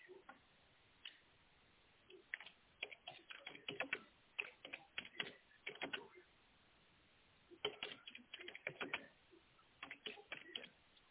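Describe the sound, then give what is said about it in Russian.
Fingers type on a computer keyboard, quick bursts of clicky keystrokes broken by short pauses, then a long gap before several more rapid clusters of taps. “Да, да, я хочу, чтобы вы написали при мне, чтобы это был звук клавиатуры.”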